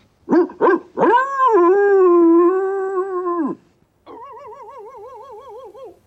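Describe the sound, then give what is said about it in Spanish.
A dog barking and whining: two short yips, then a long, high, drawn-out whine, and after a pause a wavering whimper. “¿Dos guaus? Gemido y guau.”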